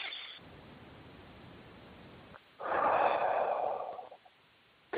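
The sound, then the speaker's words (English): One deep breath during a guided breathing exercise: a long, airy rush lasting over a second, louder than the faint, quiet stretch before it, then fading away. “you actually connect to yourself and you breathe deeply, hey, let's do that now.”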